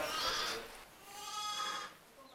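Bleating of a three-day-old lamb on a sheep farm: two drawn-out, wavering, fairly high bleats, separated by a short pause and heard without talk.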